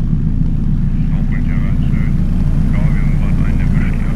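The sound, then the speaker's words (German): Helicopter flying back toward an Arctic research ship off the Greenland coast in gusty wind. Its loud, steady, low rotor-and-engine rumble holds throughout, with faint voices over it. “Der Hubschrauber nimmt wieder Kurs auf die Polarstern.”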